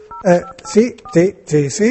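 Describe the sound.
A phone number being dialled for a prank call, a few short keypad tones slipped in among voices speaking.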